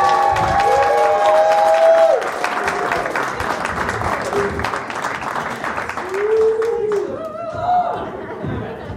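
An audience at a live comedy show about death cheers and applauds, dense clapping with whoops and shouts running throughout, dipping slightly partway before swelling again.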